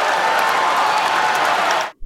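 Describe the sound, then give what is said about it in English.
A baseball crowd roars to cheer a home run hit to right field, a dense, steady wash of cheering and clapping that holds loud for about two seconds before cutting off abruptly. “A lot of cheering going on for that.”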